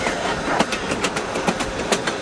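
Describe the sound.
A Grand Canyon Railroad steam train departing on the track: a loud, steady rumble with rhythmic clickety-clack of wheels over rail joints, several sharp clacks at regular intervals, no talk.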